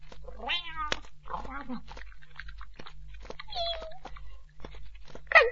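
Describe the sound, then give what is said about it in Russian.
A house cat meows several times: drawn-out, wavering cries of varied pitch, separated by short pauses, over a faint low hum. “хозяйский кот по прозвищу Снежок, который в этот момент направлялся сюда, мог обидеть кого угодно.”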